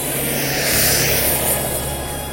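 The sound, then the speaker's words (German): A model jet-turbine helicopter on its first lap races past, a steady loud roaring whine that swells slightly midway and then eases off. “als er mit dem Düsenhelikopter die erste Runde dreht.”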